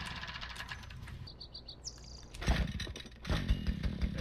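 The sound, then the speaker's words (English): An engine-powered weed trimmer cutting weeds gives a loud, steady buzzing drone that surges louder partway through. Bird chirps come through above it. “Go trim down all these weeds around here. Sorry, I gotta talk loud because this thing is quite loud, if you haven't noticed.”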